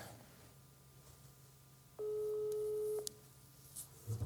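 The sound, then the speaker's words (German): One steady, low ringback tone from an outgoing telephone call lasts about a second over a faint background hum, with quiet before and after. “dann rufen wir Toni mal an. Manuel Krefer hat ihn auch schon mal versucht zu erreichen. Ich hoffe, er geht ran, ne?”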